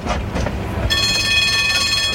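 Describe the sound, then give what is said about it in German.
Tram number 8 rides along its rails with a steady, dense rumble, and a thin high whine joins partway through and holds to the end. “Sie stiegen in das Tram Nummer 8 ein.”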